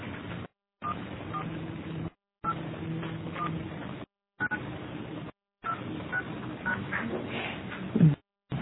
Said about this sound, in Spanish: Por favor, ingresa el número a quien quieres dejar un mensaje de voz.